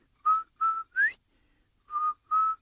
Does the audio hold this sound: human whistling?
yes